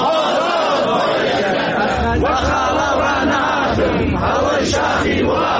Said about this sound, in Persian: شعارهای فرهنگیان در شهرهای ایران.